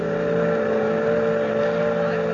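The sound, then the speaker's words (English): A boat motor drones on an excursion boat heading out to the Statue of Liberty. It holds a constant low hum with steady tonal lines and no change in pitch throughout. “Gee, it's nice riding out on the boat, ain't it, Grandpa?”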